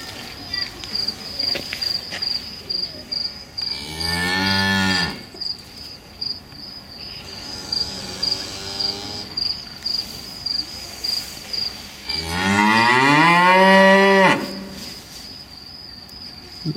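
Cows moo on an experience farm, two long, loud, drawn-out calls separated by several seconds, while a steady high insect chirping pulses throughout.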